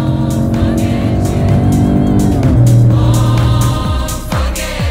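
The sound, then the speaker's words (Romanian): A car's 130-horsepower engine with an 8-speed automatic gearbox accelerates, giving a loud, continuous droning growl crossed by a few sharp clicks and easing slightly near the end. “În rest, motorul sună așa în accelerație, în mod normal.”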